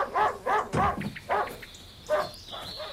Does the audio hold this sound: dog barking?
yes

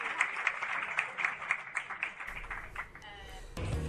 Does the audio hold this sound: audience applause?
yes

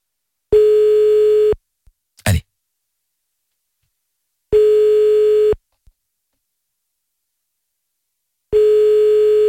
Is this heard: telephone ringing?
yes

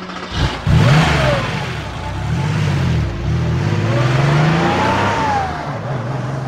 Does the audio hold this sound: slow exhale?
no

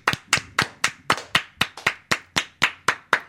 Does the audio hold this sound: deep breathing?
no

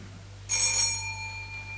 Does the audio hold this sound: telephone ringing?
yes

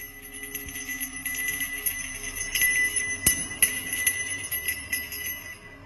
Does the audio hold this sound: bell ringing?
yes

